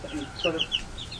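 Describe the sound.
Chickens clucking, a small flock clumped together and frightened, making soft, short, quiet clucks and murmuring calls in quick succession with no talk.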